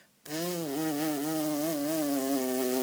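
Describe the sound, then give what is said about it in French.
A voice imitates a buzzing bee by blowing through pursed lips so that only a little air passes: a low, steady, continuous hum that starts abruptly and holds with a slight wavering for nearly three seconds. “il faut pincer ses lèvres et souffler et laisser passer juste un petit peu d'air entre les lèvres. Et donc, enfin, on peut dire qu'on apprend à faire l'abeille.”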